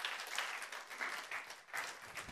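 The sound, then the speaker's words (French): Applause from a church audience clapping for a team standing up during a service: steady, dense clapping that stays quite faint throughout the short stretch, with gentle swells in loudness. “Allez-y, levez-vous l'équipe de Marc. On va les applaudir parce qu'il y a là.”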